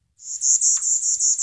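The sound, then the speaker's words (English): Bachman's warbler, a songbird considered extinct, singing a high, thin, buzzy trill. The trill holds on one pitch for just over a second with a faint pulsing texture, heard alone. “This is the sound of a Bachman warbler. It's another bird that U.S. wildlife officials say should be marked as extinct.”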